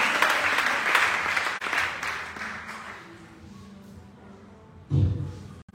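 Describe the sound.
A church audience applauds in acclaim of the word of God, loud clapping that gradually thins and fades into near quiet.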